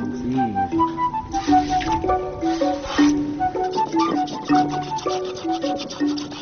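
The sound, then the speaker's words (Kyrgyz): Cow milked by hand into a bucket in cold weather, many rhythmic swishing squirts of milk striking the pail at a steady pace, with tonal sounds in the background. “Достор, мына азыр мен биринчи сааганда ушунча эле чыгып калды. Бул мен өзүм жай саагандыктан уйу сиңип кетиптир. Анан бирок эмкиде дароо бир чака толтуруп берем”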